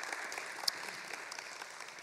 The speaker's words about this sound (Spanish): Por favor, denles un aplauso a los hermanos.